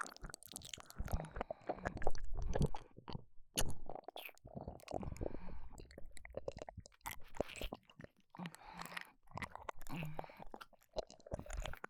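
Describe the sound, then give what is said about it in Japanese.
Wet kissing sounds on the mouth, many soft, squishy lip smacks and moist mouth noises in an irregular stream, quiet throughout with faint breathy sounds between them. “お帰りのチューするの忘れてました。それではそのお口いただきますね。”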